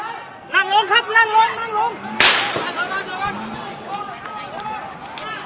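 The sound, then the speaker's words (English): Gunshots fired during a street protest, a sharp crack cutting in after a man speaks and another sharp report at the very end, with talking around them. “We're hearing shots firing. And the protesters have scattered back behind the streets, hitting the ground and looking up at buildings,”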